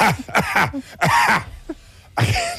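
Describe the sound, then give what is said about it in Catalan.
A voice imitates a theatre audience member coughing mid-sentence during a performance. Several throaty, voiced coughs come in quick bursts, with a short pause before a final loud hack. “El problema és quan al mig d'una frase hi ha algú que li ve la tos i fa”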